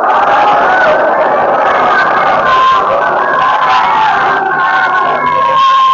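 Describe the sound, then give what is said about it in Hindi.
A crowd loudly chanting a durood slogan, many voices raised together in a sustained, shouted unison that stays loud and continuous throughout. “एक नारा हो दुरूद का लेकिन बुलंद हो।”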